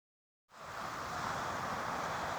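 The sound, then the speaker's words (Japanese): Wind and waves on a seaside overlooking the East China Sea: a broad, steady rushing that starts abruptly after a moment of silence and holds at an even level throughout. “今私は東シナ海を望む南上の川という場所に来ています。もう本当にこう海が広く広がっていて、奥には甑島も見えますね。”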